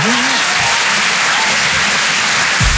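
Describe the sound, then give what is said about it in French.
Applause from the audience at a stand-up comedy show, a loud, continuous wash of many hands clapping that holds steady without breaks. “Il y a des gens qui ont arrêté d'applaudir dès qu'ils ont vu ma tête.”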